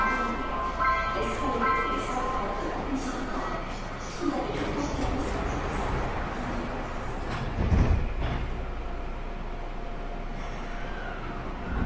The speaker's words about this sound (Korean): 출입문이 닫힙니다.